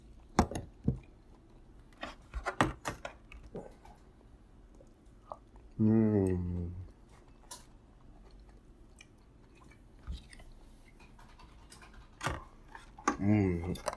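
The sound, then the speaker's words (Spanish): Cutlery clicks and chewing as someone eats rice and tomato. A cluster of quick, sharp taps comes first, then sparse clinks, with brief soft voice sounds in between. “Déjenme seguir comiendo aquí un poco de arrocito y tomate.”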